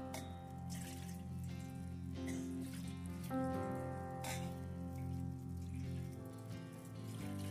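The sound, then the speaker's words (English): Water pours for ritual hand washing before a Sabbath meal, a steady continuous stream that runs unbroken for several seconds at moderate loudness. “The way you start the Sabbath off or any holy meal is you start off with a washing. And I will do this for all of us.”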